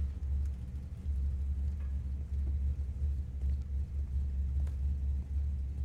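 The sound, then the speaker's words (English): A car rumbles through a film scene with no music, its engine a deep, steady low-pitched drone that swells and dips in brief waves. “See how you can kind of hear the car?”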